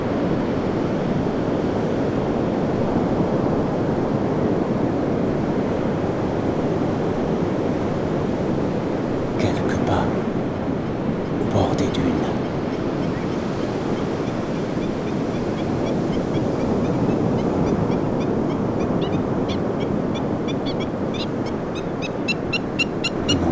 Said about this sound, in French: face à cette masse d'eau titanesque, que je vous laisse.